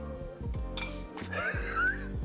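Glasses clinking together in a toast: a few bright, ringing chinks over a steady low background hum.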